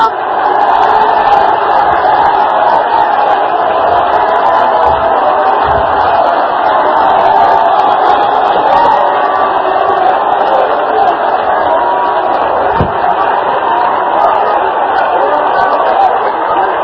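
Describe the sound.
A church audience shouts and cheers during a lively service, many voices merging into a loud, continuous roar that stays level for the whole stretch, with a few brief sharp accents near the end.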